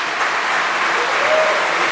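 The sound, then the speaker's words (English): An audience applauds at a contest's category announcements, a dense, even patter of clapping that holds steady from start to finish. “Round of applause.”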